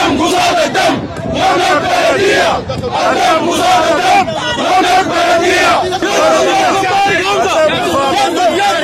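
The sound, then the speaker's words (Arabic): Sudatel company employees chant slogans at a protest. Massed voices shout loudly and steadily the whole time, with overlapping calls and crowd babble. “وردد موظفو سوداتيل هتافات:”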